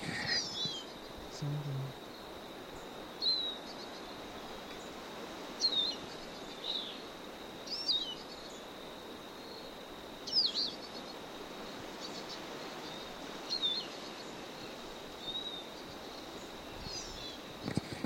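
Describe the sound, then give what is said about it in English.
A bird calling faintly, repeating a short high chirp every couple of seconds over a steady thin insect-like drone and soft background hiss. “Stop. A bird.”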